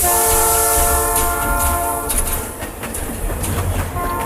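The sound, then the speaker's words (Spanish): A train departs a station, its horn sounding a loud, sustained multi-tone blast at the start. Rumbling and rhythmic rail clatter follow as it moves off. “De nuevo el Chano se escapa en el primer tren que sale de la estación en dirección desconocida.”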